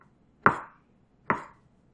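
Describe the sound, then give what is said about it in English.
Two crisp knife cuts through mushrooms, slicing them into thin matchsticks about half an inch wide. Each stroke is a sharp tap with a short fading tail, the pair spaced under a second apart, with no talk. “Now I'm just slicing these mushrooms just into little smaller matchsticks sort of thing”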